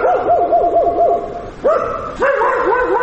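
Stray dogs barking on a city street at dusk, a run of rapid high-pitched yelping barks that breaks off, then resumes in two louder bursts with more dogs joining, steady and fairly loud throughout.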